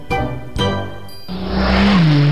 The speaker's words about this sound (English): Hey, slow down, buddy. This ain't Talladega.